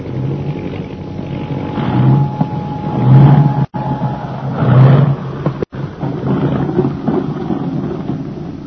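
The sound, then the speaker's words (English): An aircraft coming in to land, heard as a loud, low engine rumble that surges and eases several times, with wind noise and no talking. “This is all right, Lieutenant. Come in for a landing.”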